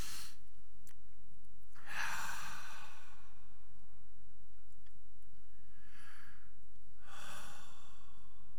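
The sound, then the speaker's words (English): Deep breaths drawn in during a group prayer, heard as a few long, soft, airy rushes of breath separated by quiet pauses, with no talk. “we're going to take our breaths, just take a big old deep breath in.”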